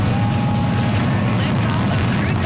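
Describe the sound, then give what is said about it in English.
A SpaceX Falcon 9 rocket launching from Cape Canaveral, carrying the Crew 13 Dragon, gives off a loud, steady, low roaring rumble that holds without a break. “That is the sound of the beginning of a great adventure for Joshua Kutrick, the Canadian astronaut on board the Falcon 9 rocket that launched this morning from Cape Canaveral.”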